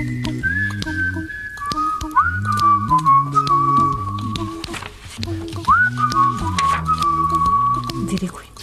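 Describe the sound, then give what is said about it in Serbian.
Whistling of a melody with held, slightly gliding notes over a low, layered vocal-like backing that moves in stepped chords; the whistle stays clear and prominent. “Zviždim.”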